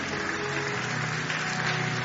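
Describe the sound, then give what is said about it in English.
Audience applause at a church ceremony, continuous clapping from many people forming a steady, unbroken roar of hand claps with no voices standing out. “Keep clapping as it comes, please.”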